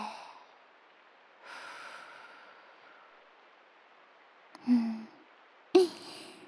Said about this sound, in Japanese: 吐いて、吐いて、